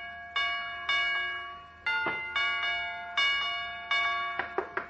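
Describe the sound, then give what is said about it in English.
A doorbell being pressed over and over, sounding a series of clear, resonant chime tones that each ring on and fade, ending in a quicker flurry of short rings. “Oh, it's Doc Gamble pressing the button.”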